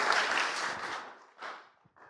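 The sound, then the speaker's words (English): Applause for a speaker coming up on stage, steady clapping that thins out and dies away, ending in a few scattered claps. “He is clapping for me coming up here”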